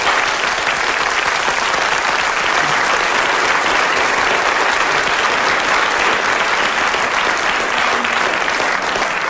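Studio audience applause welcoming a comedy panel game show, a loud, dense wash of clapping that stays full and even throughout, with no voices on top.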